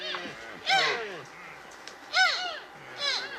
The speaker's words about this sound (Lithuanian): Čia girdite elnio patelės ir jauniklio balsus.